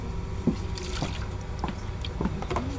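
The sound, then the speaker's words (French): Water running and dripping: a soft, continuous trickle broken by a series of small splashy drips at irregular moments. “Oh, il y a tout l'eau qui coule. Faut refaire.”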